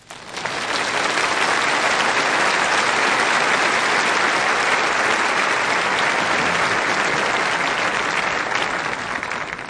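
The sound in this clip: Applause from an audience at the Crystal Cathedral welcoming a speaker: a loud, dense, steady wash of clapping that holds unbroken for about ten seconds.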